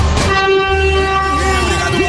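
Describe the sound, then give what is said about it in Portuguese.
A train horn blows inside a rail tunnel at Piaçaguera, one loud, sustained, buzzy chord over a deep rumbling engine, holding steady before dipping slightly in pitch near the end. “Vamos lá, vamos buzinar. Buzina aí, meu filho.”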